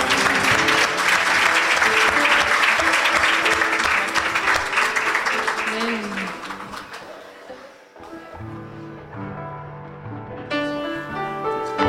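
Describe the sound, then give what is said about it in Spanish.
Loud, dense applause from an audience at a church worship service holds for several seconds, then gradually thins and fades as tonal, music-like sounds take over. “¡Un aplauso!”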